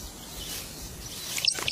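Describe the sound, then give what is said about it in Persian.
Short high chirps of a male bird seeking a mate among fresh grasses: a few quick calls come near the end over a steady soft hiss. “اگرچه اونها فقط در جستجوی غذا نیستن، این پرنده نر به دنبال یک جفته.”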